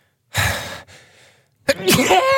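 A person sneezes: a loud, breathy burst followed by a brief pause and a second, voiced explosive burst.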